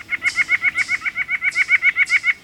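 Calls of a white-breasted nuthatch: a fast, even run of many loud, nasal, honking notes in a steady rhythm, with no other sounds.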